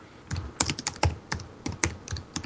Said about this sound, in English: Let me type some notes.